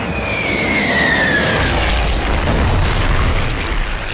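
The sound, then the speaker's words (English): A heavy explosion from a bomb dropped by aircraft: a loud, sustained roaring boom that fills the whole clip, with a thin falling whistle-like tone early on. “Well done, your first bomb”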